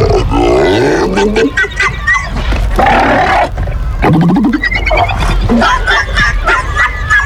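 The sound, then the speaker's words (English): Seals grunt and call in a loud, continuous chorus of overlapping rasping barks, groans and moaning wails. The calls rise and fall in pitch throughout. “Guess what these seals are saying instead?”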